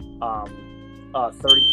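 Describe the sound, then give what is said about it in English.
A fire alarm goes off with a high, steady electronic tone in the final moments, after short bursts of a man talking. “excuse that fire alarm. My bad.”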